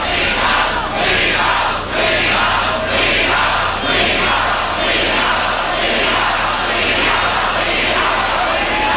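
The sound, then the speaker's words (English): A huge crowd of some 65,000 people protesting a state income tax in Connecticut boos the governor, making a loud, sustained roar that swells rhythmically throughout. “65,000 people booing the governor. This would sound like, Governor,”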